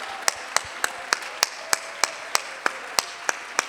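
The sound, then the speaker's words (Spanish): Congregation clapping in a church: about a dozen sharp, evenly spaced claps in a steady praise rhythm. “Un fuerte aplauso al Señor.”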